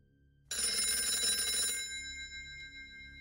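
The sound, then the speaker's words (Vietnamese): A telephone bell rings loudly with a harsh, metallic tone. It starts abruptly, rings hard for about a second and a half, then fades into a lingering tail. “thì có tiếng chuông điện thoại reo inh ỏi”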